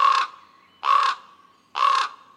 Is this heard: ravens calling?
yes

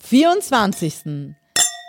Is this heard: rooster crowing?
no

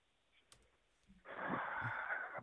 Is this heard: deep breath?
yes

